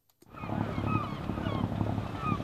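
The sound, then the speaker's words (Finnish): Low, steady engine hum of boats in the fishing harbour at Whitby, a continuous quiet rumble that starts abruptly after a brief moment of silence. “Lokit ja turistiveneet ovat vallanneet Whitbyn sataman.”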